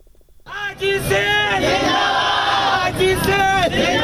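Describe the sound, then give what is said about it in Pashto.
Crowd of Hazaras chanting slogans at a protest in Karachi: after a brief quiet start, many voices rise together into loud, sustained rhythmic chanting that carries on to the end. “د اسرار العالم مومند رپورت د پولیس مشر په حق کې د نرخ ځیو په نارو پیلېږي.”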